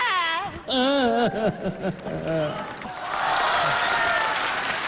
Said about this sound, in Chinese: 行了，就别鼓掌了